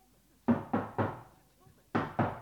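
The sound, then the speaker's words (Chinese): Knocking on a courtyard gate: two groups of three firm, evenly spaced knocks, loud and alone, with a short pause between the groups. “是敲门的声音。”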